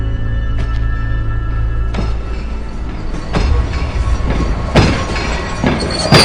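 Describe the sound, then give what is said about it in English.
Steady, loud rumble of a passenger train riding on rails in Central Australia. Rhythmic clacks and sharp wheel bursts recur over the continuous roar. “Now the young woman, Robin, awakes on a passenger train, sitting across from a black dog.”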